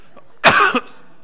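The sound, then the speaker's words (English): A person coughs hard: one short, loud, rough burst followed by a brief second pulse, heard alone with no talking. “I'm going to have to cough.”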